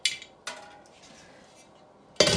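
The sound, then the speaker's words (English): A lid is set on a big pot of water on a stovetop, giving quiet metallic clinks: two sharp taps close together, then a louder clattering clank at the end. “And I'm just going to cover them when I find where I put the cap.”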